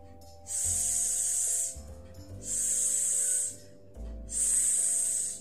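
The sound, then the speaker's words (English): A voice imitates a snake's hiss with three long, steady S sounds, each lasting more than a second and separated by short, evenly spaced pauses. “Weave your hand in an S shape like a snake and say”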